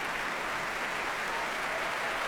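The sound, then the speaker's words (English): Applause from a concert audience after a choir's performance, with the man on stage also clapping: a dense, steady wash of many hands clapping together, fairly faint and unbroken throughout. “He claps and applauds the choir himself.”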